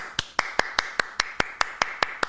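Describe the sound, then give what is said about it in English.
One person clapping alone, a steady series of crisp, evenly spaced single claps at a moderate pace, fairly faint, with no other sound around them. “I'm just going to keep applauding just me.”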